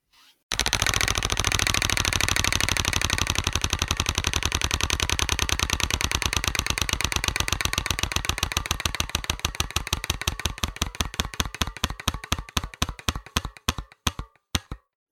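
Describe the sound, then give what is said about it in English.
A spinning prize wheel clicks against its pointer, a dense rapid ratchet that gradually slows into widely spaced single clicks before stopping; no voices are heard. “I'm going to spin the wheel.”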